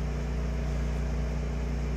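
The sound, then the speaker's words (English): A generator runs during a power outage, giving a loud, steady droning hum with strong low harmonic tones that stay constant in pitch and volume throughout. “I heard the generator semi bogged down for a minute and went right back up”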